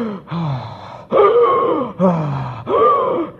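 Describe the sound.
Gasping, short breaths of a runner tiring on a run, loud and ragged, coming in a series of heavy, voiced, groaning pants with brief pauses between them.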